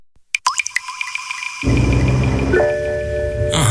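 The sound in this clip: A dashboard chime in a BMW over five years old signals that a service is due: a run of short, bright pulsing tones, then sustained steady tones over a low hum.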